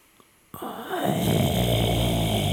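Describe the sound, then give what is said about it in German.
Ujjayi-style breathing exhaled through the mouth: after a brief quiet moment, one long, loud, raspy breath starts abruptly and continues steadily with a throaty, snore-like texture. “Das ist jetzt fast Ujjayi-Atmung.”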